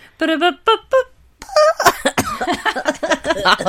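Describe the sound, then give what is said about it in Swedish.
A voice imitates a fanfare jingle, singing a few short, bright, tuneful notes followed by a longer voiced phrase. “Förlåt, det var verkligen en ovärdig jingel. Men en fanfar för Majgull.”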